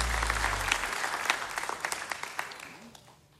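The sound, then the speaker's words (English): Audience applause at a live music show at Mount Stage, a lively mass of clapping that thins into scattered claps and fades away, with a brief low tone at the start. “Give it up for the folks here at Mount Stage.”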